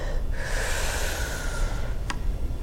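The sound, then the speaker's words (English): People breathe in deeply during a sermon: one long, airy inhale lasting about a second and a half. It is soft and hissing, heard alone without talk. “Now breathe again.”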